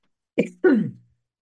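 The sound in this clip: A person clears their throat from a tickle in the throat: a short, rough burst followed by a longer, throatier one, heard alone with no speech.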